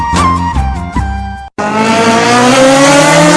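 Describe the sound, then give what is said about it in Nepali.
Engine revving in an advert for a new Bajaj motorcycle. A loud, tonal engine note wavers with a couple of dips, cuts out briefly, then returns as a sustained whine that climbs steadily in pitch, with no voices. “Bajaj company को नया motor bike चल्न चाहने महानुभावहरुलाई मध्यनजर राख्दै Bajaj company ले ल्याएको छ Bajaj exchange offer.”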